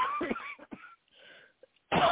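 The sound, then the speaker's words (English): Someone who has skipped their inhaler coughs in a few short, harsh, breathy bursts amid fragments of speech, with a louder voice returning at the end. “excuse me, am I coughing? I forgot to do my inhaler.”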